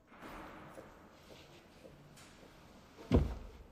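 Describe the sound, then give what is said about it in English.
A prison cell door shuts with one dull, solid thud near the end, after a few seconds of faint, quiet background. “an officer releases Liam's handcuffs, then shuts the door and the viewing panel.”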